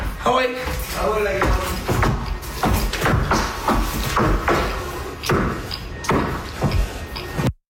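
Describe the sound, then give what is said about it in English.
Heavy, irregular thuds and scuffs of a moose stomping on the floor of a house it broke into in Trois-Rivières. Many loud, dull thumps follow one another over several seconds, then cut off sharply. “that is the sound of a moose stomping on the floor after it broke into a man's house”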